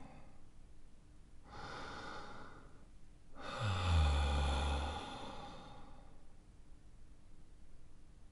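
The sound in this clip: Slow, deep breathing during a guided relaxation exercise: a soft, airy inhale followed by a longer, louder breathy exhale, faint and unhurried, with no talking.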